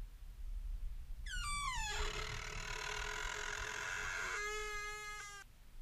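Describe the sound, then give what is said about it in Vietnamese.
A door slowly creaks open in one long, drawn-out, reedy creak. Its pitch falls at the start, then it holds steady for several seconds before cutting off. “Ngay lúc ấy, cánh cửa từ từ mở ra.”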